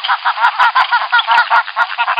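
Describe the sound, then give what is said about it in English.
Recorded flamingo calls played from a speaker, heard as many rapid, nasal, goose-like honks in a quick uneven rhythm, loud and thin-sounding. “playing recorded flamingo calls from a speaker would inspire the birds to greater heights of romance”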